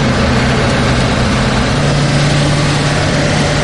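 Engine of an armoured Humvee fitted with welded grilles and chains, running steadily: a continuous broad roar with a low, droning hum underneath, with no voices.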